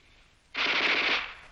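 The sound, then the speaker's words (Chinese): A Japanese Type 11 light machine gun fires in a wartime radio drama battle scene, a rapid, crisp rattling burst lasting about a second, fairly faint and heard alone. “你听啊，那小歪把子声音多脆呀、啊！”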